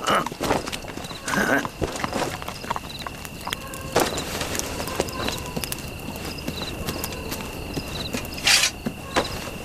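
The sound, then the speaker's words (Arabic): A donkey's hooves clop as it walks, with many irregular hoof taps that are fairly faint and steady throughout. A few louder knocks stand out along the way. “تعال، ساعدني قليلا. هيا تعال أيها الحمار. هيا هيا هيا هيا من هنا، هيا اخرج، هيا.”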